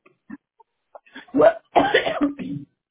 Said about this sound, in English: oh, sorry, I'm coughing.